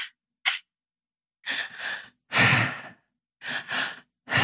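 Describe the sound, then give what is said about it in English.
Paced breathing exercise: two quick inhales, into the belly and then the chest, are followed by one long, loud breath out through the mouth, and the cycle repeats, breathy and alone. “So we breathe twice in and one out. And it's into the belly, up into the chest, and out in the mouth.”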